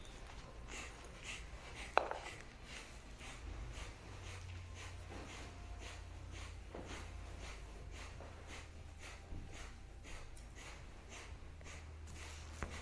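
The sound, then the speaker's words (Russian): Kapalabhati yoga breathing during a kriya practice: many quick, forceful exhalations through the nose in a steady, rapid rhythm, soft and breathy. “Начинаем дышать. Дышим 3 минуты. Капалабхати, поехали.”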